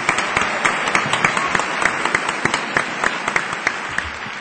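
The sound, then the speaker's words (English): Audience applause welcoming a speaker at an evening awards event: a dense, steady wash of many hands clapping with sharp individual claps standing out, holding an even loudness throughout without voices. “Let's welcome Mr. Lee Kien-truk with a warm applause.”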